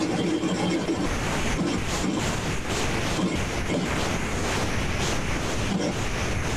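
Wind blows through thick, browned thorny growth with fallen leaves, a steady rushing whoosh with soft gusts swelling and easing throughout, moderately loud and with no voices.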